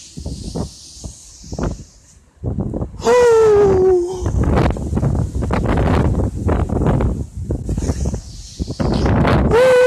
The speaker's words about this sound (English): Excuse all the wind, but why should I excuse something so natural, something so pure?